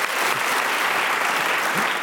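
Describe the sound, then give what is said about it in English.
Audience applause at a show: dense, steady clapping from many hands that holds an even, fairly loud level throughout without pauses or swells, with no voices heard over it. “Round of applause to Sophie and all of our accessories.”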